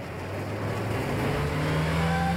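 Car engine roaring during a high-speed chase, a continuous loud drone with a steady low tone that climbs slightly in pitch toward the end.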